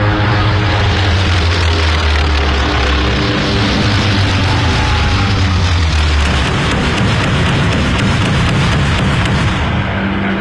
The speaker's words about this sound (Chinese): 首先起飞的是第八鱼雷轰炸机中队。